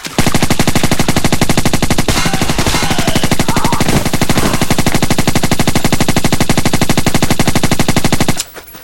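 A good machine gun fires in a video game: a loud, unbroken stream of rapid, evenly spaced shots for about eight seconds, then stops abruptly.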